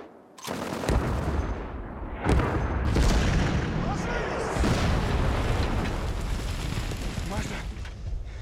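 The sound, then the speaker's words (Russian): Loud machine-gun fire from a branch-camouflaged platform moving along railway tracks, with several sharp bursts and heavy booms over continuous rumbling noise, and a voice speaking over the shooting. “По рельсам движется замаскированная ветками платформа. На ней Федоров у пулемета. Он прицеливается и стреляет.”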